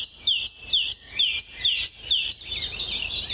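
Birds sing in an orchard in mid-April spring: a run of bright, high chirps repeats at a steady, quick pace, then breaks into a brief jumbled twittering trill, clear and without voices.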